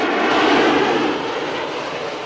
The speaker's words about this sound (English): A private jet taxis along a nearby runway.